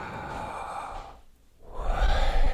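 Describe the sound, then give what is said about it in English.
A person breathes in and out slowly, making two long, airy breaths with a brief hush between them and no talking. “when you stop and think about breathing in and breathing out, it sounds like that word, like,”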